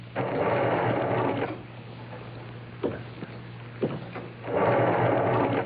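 A prison cell door being locked: a loud rattling mechanical churn, then two sharp metallic clacks in a quieter stretch, then the rattling returns. No voices.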